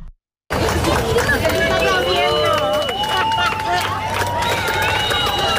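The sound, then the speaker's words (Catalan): Crowd of hundreds watching a solar eclipse on Barceloneta beach in Barcelona: a steady, dense hubbub of many voices with scattered calls rising above it, continuous throughout. “I tot i que no era l'espai més idoni, centenars de persones, ho sentim de fons, han viscut el gran fenomen astronòmic des de la platja de la Barceloneta de Barcelona.”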